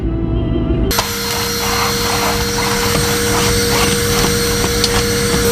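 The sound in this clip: A vacuum cleaner runs as someone cleans manically amid dust at Christmas. It switches on abruptly after a brief quiet moment, then holds a loud, steady whirring drone with a constant motor hum.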